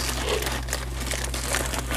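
Crinkling snack chip bags being folded up: a loud, steady crackle and rustle of plastic film that keeps going for about two seconds without a break, over a low steady hum.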